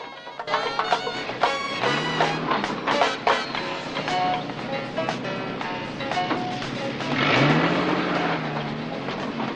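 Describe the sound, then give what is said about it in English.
A van pulls up outside a building and drives off. Its engine rises in pitch as it accelerates, amid dense clattering and knocking noises that come and go throughout. “Later, Murphy and Corelli pull up in a van outside a building. Murphy gets out and Corelli drives off.”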